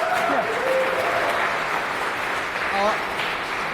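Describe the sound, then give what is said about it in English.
An audience applauds between speakers at a tech conference talk session. The applause is a loud, continuous wash, and voices are heard over it. “A round of applause, please, for Ivan”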